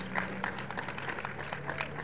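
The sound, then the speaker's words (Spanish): A crowd at an indigenous congress gathering applauds with steady, dense clapping that keeps an even, moderate level throughout. “Digo, con un fuerte aplauso.”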